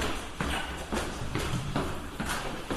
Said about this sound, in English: So now we're walking down the stairs and she's like way ahead of me